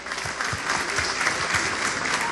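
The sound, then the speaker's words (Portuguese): Applause from a church gathering in Rio de Janeiro, with many hands clapping in a steady, fairly faint patter that continues evenly throughout. “Uma salva de palmas a eles.”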